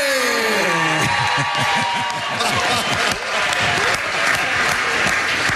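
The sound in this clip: Audience applause for a guest at a show: a tonal sound fades as clapping breaks out about a second in, then continues steadily with voices talking over it.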